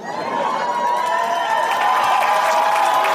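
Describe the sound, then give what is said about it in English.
Audience applause at a stand-up comedy debut: steady, dense clapping mixed with crowd cheering that holds an even level from start to finish. “Already getting a round of applause.”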